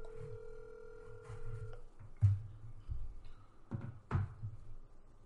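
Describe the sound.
A telephone call on speakerphone: a steady two-tone dial tone holds for under two seconds and then cuts off. A few brief thumps and clicks follow against a low background murmur.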